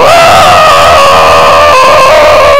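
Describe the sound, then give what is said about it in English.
A man's voice imitates another man screaming as he gets out of bed. It is one loud, strained, sustained yell that holds a fairly level pitch throughout, with a brief wobble partway through. “Just screams every time he gets out of bed.”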